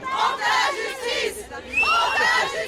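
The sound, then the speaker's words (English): Supporters cheer and shout outside the Avignon courthouse after the verdicts, a crowd of voices rising in loud waves with a short lull midway before the cheering swells again. “Outside the courthouse, opposite the old walls of Avignon, Gisèle Pelicot's supporters cheered the verdicts but were less happy with the sentences, which many felt were too lenient.”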